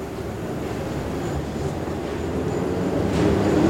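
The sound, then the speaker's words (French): Metro train pulling into a station: a steady, dense rolling rumble that swells slightly louder toward the end, with no voices present. “Un métro arrive, les gens entrent dedans et s'apprêtent à repartir.”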